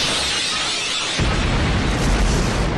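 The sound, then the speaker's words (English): The Draco Blitz attack effect from a video game plays as a loud, dense rushing roar that abruptly swells into a heavier, deeper explosive blast partway through, then holds that level to the end. “Ziyogmus used Draco Blitz.”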